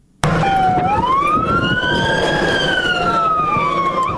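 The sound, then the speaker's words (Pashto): An ambulance siren in Lashkar Gah, Helmand, wails loud and steady, its tone sweeping slowly up and then back down. “د امبولانس”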